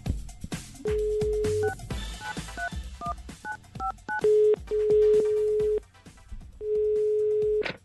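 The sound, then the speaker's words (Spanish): Telephone number being dialed: a quick series of short keypad tones, then longer steady tones, over low background noise. “El Instituto Milford está esperando nuestra llamada. O sea, ¿qué le marco? De una.”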